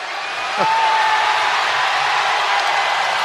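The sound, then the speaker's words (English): Hockey arena crowd at a San Jose Sharks versus St. Louis Blues game reacting as a player steps into the penalty box, a dense steady roar that lifts slightly after half a second and holds. “Crowd responding to him stepping into the penalty box”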